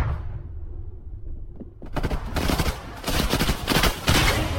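Gunshots in a video game: after a quiet, low rumbling start, loud rapid gunfire breaks out, with many sharp shots crowding together in dense bursts that continue to the end.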